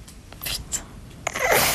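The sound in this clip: A newborn baby's sneeze: a short, breathy burst near the end, after a couple of soft snuffly breaths, heard alone without talk.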